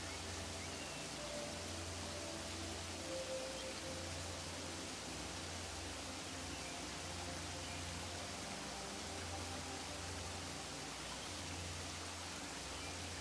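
The rumble of a waterfall makes a faint, steady rushing wash of water noise. It stays even and unbroken from start to finish, with no voice over it.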